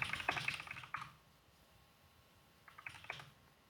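Quick bursts of typing on a computer keyboard: a second of rapid clicks, a pause of near silence, then another short flurry of keystrokes. The sound is faint and no voices are heard.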